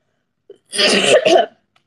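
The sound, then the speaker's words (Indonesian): Two harsh, loud coughs in quick succession, the first longer and the second shorter, preceded by a faint click and followed by quiet. “Aduh, aduh, batuk, batuk, bentar, bentar.”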